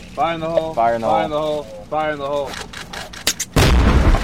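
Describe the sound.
Army engineers set off a C4 charge to clear a heavily mined area: a voice counts down, then a loud, sharp blast bursts out and carries on in a broad roar to the end.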